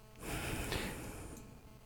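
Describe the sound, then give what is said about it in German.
A deep breath in and out, heard as one steady, soft rush of air lasting under two seconds without a break, quiet and with no talking. “Also alle mal tief einatmen und ausatmen.”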